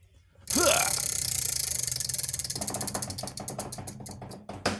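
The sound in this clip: A spinning wheel ratchets with rapid mechanical clicks that gradually space out and slow as it coasts toward a stop, loud and alone with no talk.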